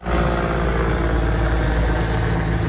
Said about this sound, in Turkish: Uçak ve helikopterler yüzlerce kez sortu yaptı.